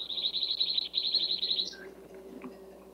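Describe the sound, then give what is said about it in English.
Small bird chirping in a rapid, high-pitched series of many short notes that runs steadily, then breaks off, leaving a faint low hum behind. “A cute little birdie in the background.”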